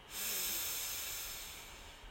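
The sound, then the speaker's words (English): A person takes one long, deep inhalation during a guided breathing exercise. The steady, airy hiss swells quickly, holds, then slowly tapers off, alone and fairly quiet. “So let's do that now. We breathe in and out. Ah. Breathe in”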